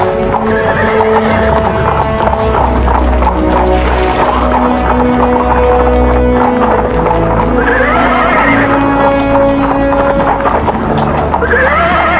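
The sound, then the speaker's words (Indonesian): Horse hooves clip-clopping slowly alongside a cart on a stony village road, a steady, loud plodding rhythm, with a few whinnies rising over it. “Dia naik kuda perlahan-lahan bersama Mas Mansur. Sementara keluarga Mas Mansur naik gerobak bersama para wanita dan anak-anak yang lain.”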